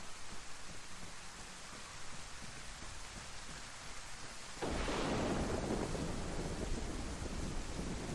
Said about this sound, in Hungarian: beállsz egy fa alá, az nem fog megvédeni sajnos az esőtől.